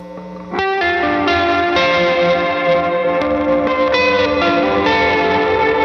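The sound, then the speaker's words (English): A compressed synth preset drenched in reverb, with sustained distorted chords entering after a brief low note and ringing on as a continuous, soupy, spacey wash with slight shifts in the harmonics. “hold on, I add some reverb to that.”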